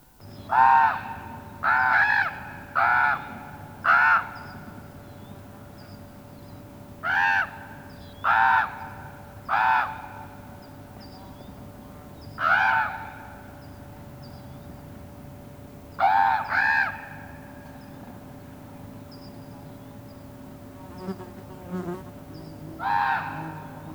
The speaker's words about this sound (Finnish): Korppi.